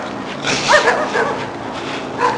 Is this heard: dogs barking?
yes